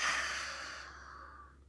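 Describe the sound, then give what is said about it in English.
A deep breath is let out through an open mouth during a guided breathing exercise: a loud, airy, breathy rush that fades steadily over nearly two seconds. “take a deep breath in through your nose. Open your mouth and let it out.”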